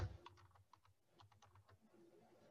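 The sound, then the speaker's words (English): Keystrokes on a computer keyboard as an online entry form is filled in: many quiet, irregular clicks in quick bursts at first, becoming sparser, with no talking. “You're going to type that email in again.”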